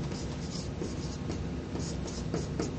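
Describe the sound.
An eraser rubs writing off a board during a lecture, a steady, continuous scrubbing with quick back-and-forth strokes that run unbroken for about three seconds.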